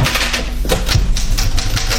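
Clacking typewriter keys at an uneven pace, many sharp, fairly loud strikes over a low steady hum, with no voices.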